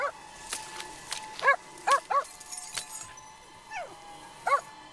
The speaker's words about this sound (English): The dog barks up at its entranced owner.